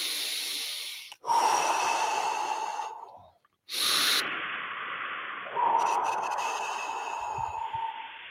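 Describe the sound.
Deep, slow breathing during a guided breathing exercise: a few long, loud, airy breaths separated by brief pauses, with no talking.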